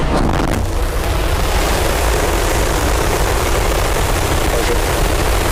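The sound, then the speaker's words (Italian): Deep, continuous roar of a SpaceX Starship rocket launching toward Earth orbit for the first time: a loud, dense rumble that holds steady without a break across the whole clip. “SpaceX ha lanciato il razzo Starship verso l'orbita terrestre per la prima volta. Vediamo allora il lancio del razzo.”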